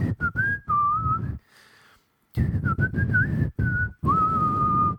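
Someone whistles a clear, high tune in several phrases of held and wavering notes, stopping for a brief pause midway before carrying on alone.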